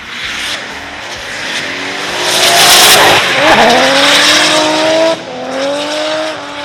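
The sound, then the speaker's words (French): A car drifts at a festival in Lignières, rear wheels sliding on the track: a loud revving engine climbs in pitch under a steady roar of tire squeal, dips briefly, then winds up again. “Nous nous intéressons à un sport dont le but est de réduire l'adhérence des roues arrière sur la piste afin de glisser. Le drift.”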